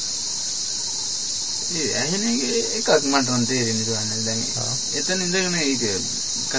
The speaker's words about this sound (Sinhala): දැන් ඔයා එතන ඉඳද්දී රැහැයි කෑ ගහන්නේ කියන එක දන්නවද